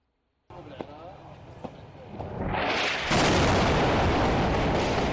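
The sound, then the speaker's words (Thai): Airstrike explosions in the southern suburbs of Beirut, starting with a few sharp thuds over a low rumble, then swelling into a loud, sustained roaring blast that carries to the end, with voices faintly present. “ก็เป็นนาทีของการโจมตีที่เกิดขึ้นนะครับ”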